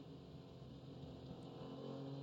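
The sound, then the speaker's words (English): A low, steady engine thrum from an Acura sports racing car on track holds an even, droning tone that stays faint and changes little in pitch throughout. “Unusual for them. The low thrum of the Acura.”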